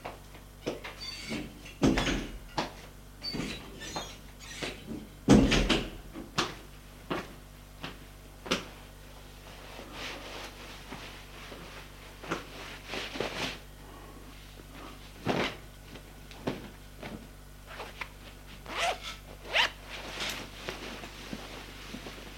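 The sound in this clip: Someone getting dressed in a bedroom, with many irregular knocks, thumps and drawer- or cupboard-like clatters scattered over a quiet background, some louder bumps early on.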